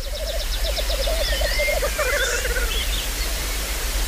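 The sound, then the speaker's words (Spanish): Male birds displaying and calling at a lek, in a grouse-like communal display: rhythmic, pulsed low calls repeat alongside higher, whistling notes, over a steady noisy background. “se reúnen en el lek, en grupos donde cada uno se exhibe para que las hembras vengan y elijan al mejor. Y eso es lo que estáis oyendo.”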